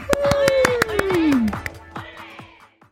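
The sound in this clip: Rhythmic hand clapping welcoming guests on a Korean afternoon show, a quick run of sharp claps with a descending whistled slide laid over them, thinning out toward the end.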